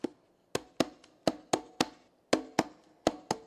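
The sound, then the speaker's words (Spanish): Hand-percussion strokes (slam, closed, open and bass tones, the bass played with the left hand) struck in a brisk, uneven rhythm. Many crisp, sharp hits each ring briefly and decay; no voices. “El slam. Algunos le llaman la galleta, el slam, el golpe cerrado, el abierto y los bajos con la mano izquierda.”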